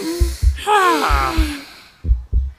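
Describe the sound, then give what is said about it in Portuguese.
Deep breathing in and out to calm a racing heart, drawn as slow voiced breaths with a sighing, wavering exhale, over low paired thumps like a heartbeat. “que tal respirar fundo com eles? Uma. Duas.”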